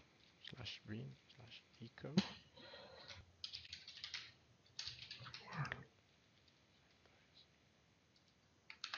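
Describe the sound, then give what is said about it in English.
Computer keyboard typing as a command is entered in a terminal, faint irregular bursts of key clicks with short pauses between them. “For example, I can type Docker run CentOS.”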